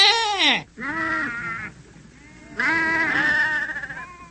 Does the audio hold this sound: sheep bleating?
yes